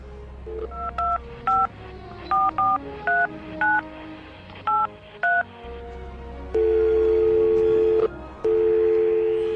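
Telephone keypad tones while a call is transferred: a quick, irregular series of short dual-pitch beeps, then two long steady tones separated by a brief gap.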